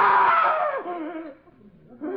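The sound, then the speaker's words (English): A man screams for help in a loud, strained voice whose pitch drops across the cry. A lower, wavering vocal tail follows, then a brief renewed burst at the very end. “Why did you call for help? What made you scream?”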